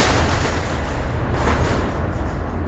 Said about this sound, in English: You hear this? You see, this is major American airstrikes.